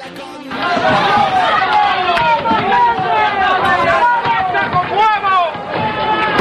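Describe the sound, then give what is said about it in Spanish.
A festival crowd in Piornal pelts a costumed figure with turnips, a loud, continuous mass of shouting and chatter broken by many sharp, scattered knocks. “es el sonido, el ruido ambiente de los nabos al Jarramplas.”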